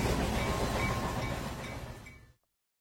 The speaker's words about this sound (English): Now trees and fields are flying by the train.